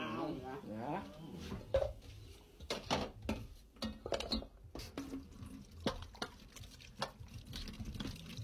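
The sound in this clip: Water poured into a coconut in a Creole setting, heard as a string of sharp, wet splashes and taps spaced irregularly, following a stretch of talk at the start.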